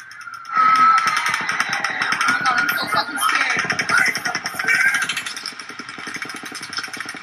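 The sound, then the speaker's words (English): Rapid, loud cracks of bullets passing nearby as a shooter fires into a concert crowd by the front of the stage. After a brief quieter moment, a dense, regular train of sharp cracks runs on for several seconds. “The cracking sound you hear are bullets passing nearby.”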